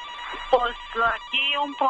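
Electronic ringtone of a telephone signalling an incoming call: a short melody of a few bright, tonal notes, each held briefly with small gaps between them.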